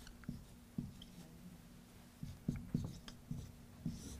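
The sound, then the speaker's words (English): Pen writing on paper: a few soft, scratchy strokes and light taps at an irregular pace, faint and quiet, with no voices. “Sorry, I'm writing sideways.”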